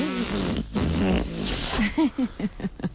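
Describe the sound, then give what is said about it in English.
A person imitating small farts with the mouth: a low buzzy sputter, then a quick series of short, blurting voiced bursts with brief gaps between them. “I'd start to blow little baby farts right out of my ass. Like this.”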